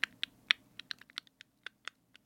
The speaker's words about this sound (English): ASMR of typing keys